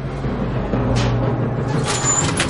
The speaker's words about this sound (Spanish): toca la botonadura de un ascensor. La cabina sube hasta ella.